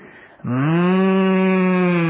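A cow lows near its shed: one long, steady, low moo held for well over a second and a half, rising abruptly out of a quieter, murky background.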